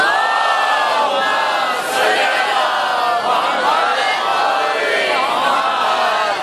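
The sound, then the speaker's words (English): An audience recites a loud salawat together after the Zohar prayer. Many voices chant in unison in a sustained, sliding melodic line that stays loud throughout. “Now, it's after Zohar. Can I have a loud salawat from all of you?”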